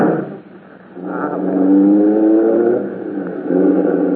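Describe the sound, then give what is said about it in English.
A taxi cab drives off, its engine giving a steady hum that rises slightly in pitch as the car pulls away. The sound swells louder midway, eases, then builds again. “Can't we run out in a cab? Oh, all right. Let's get in this one. Sure. Driver, take us to 451 North Beverly Drive.”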